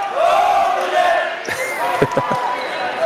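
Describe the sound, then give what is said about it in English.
Student section crowd loudly chanting and cheering at a high school volleyball match, many voices rising and falling together, with a few sharp thumps near the end. “I have to say the Oliva Strum student section is in good voice tonight. They are. They're powerful and positive still.”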